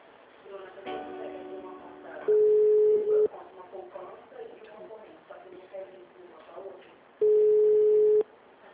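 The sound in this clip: A telephone line tone sounds while a call is being transferred: two steady, loud beeps of about a second each, several seconds apart, over a continuous busy, murmuring background.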